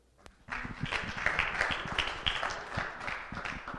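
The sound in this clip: Applause from a church audience welcoming a speaker starts after a short pause and holds as dense, steady clapping until the end.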